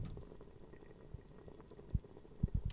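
Liquid just starting to boil on a white stove, a faint bubbling hiss broken by a few soft, scattered pops.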